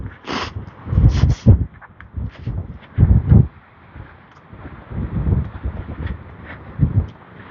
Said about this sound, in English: So now I got the wind at my back.